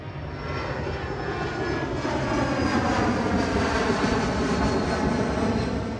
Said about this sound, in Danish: musikerne endnu en gang stiger ombord på en flyver, og den her gang drager endnu længere østpå mod Japan